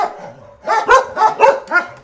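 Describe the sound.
Dogs bark in a house where several dogs live together, about five quick, mid-pitched yapping barks in a lively burst after a faint whimper.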